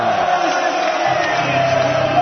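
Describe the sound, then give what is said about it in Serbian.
Serbian basketball fans cheer and celebrate, on their feet with Serbian flags and singing. Their continuous loud roar is dotted with shouts and whoops. “Traje slavlje naših navijača uveliko. Oni su svi na nogama sa zastavama Srbije. Pevaju i šekuju posljednji napad”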